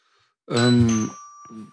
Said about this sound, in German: Hier hat es gerade geklingelt.